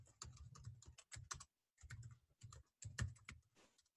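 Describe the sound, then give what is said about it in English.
Typing on a computer keyboard: rapid, faint key clicks arrive in several bursts of quick strokes, separated by brief silent pauses. “We'll just type that in there.”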